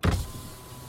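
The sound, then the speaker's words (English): A car's electric window rolls down with a brief motor whir that starts strong and fades to a low hum, heard alone and lasting under a second. “until the boyfriend could get up the courage to roll down his window”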